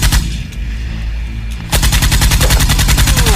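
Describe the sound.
Rapid automatic gunfire, a machine gun firing a long, fast burst of many sharp, loud shots in a steady rhythm. It starts abruptly after a lower, rumbling stretch.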